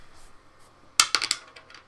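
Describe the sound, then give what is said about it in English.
Dice dropped onto a table for a tabletop game roll give a sharp clack followed by a few quick, lighter rattling clicks within about half a second, with no one talking. “And then drop my dice.”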